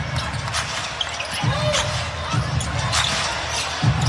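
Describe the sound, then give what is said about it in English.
A basketball is dribbled up the court during a women's pro basketball game involving Phoenix, a few heavy, low bounces thudding at an uneven pace over steady arena noise. “She missed that jump shot. Thomas dribbles back the other way.”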